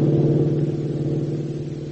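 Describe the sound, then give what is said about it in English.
A black sedan speeds down a state highway, its engine giving a steady, continuous low drone with a throbbing hum that holds fairly even throughout. “ahead of Hop and Tank, a black sedan speeds down the state highway with Ramon at the wheel”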